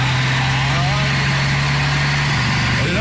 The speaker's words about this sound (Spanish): Este tiene un motor de Torton. Tiene un motor de camión Dina.